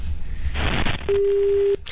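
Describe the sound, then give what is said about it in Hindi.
A telephone busy tone sounds after a caller's line drops, a single steady electronic beep at one fixed pitch lasting under a second, amid a hissing line. “Ravi से हमारा संपर्क टूट गया है।”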